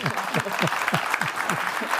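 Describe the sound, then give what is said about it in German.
Audience applause breaks out at a talk event to mark a birthday, a dense, continuous patter of many hands clapping at steady loudness throughout. “einen ganz festen Applaus”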